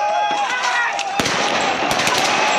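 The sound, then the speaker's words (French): Police fire live bullets at protesters during riots in which buildings are set ablaze. Several sharp, loud cracks ring out over a raised, harmonic clamour of voices and a dense, noisy din. “Dépassé, la police se met à tirer à balles réelles et pourchasse comme elle le peut les manifestantes et les manifestants.”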